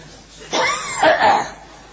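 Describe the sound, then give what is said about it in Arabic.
A speaker's cough during a lecture: two short, rough bursts about half a second apart, the second longer and louder, set against a quiet background. “أستأذنكم أسعل.”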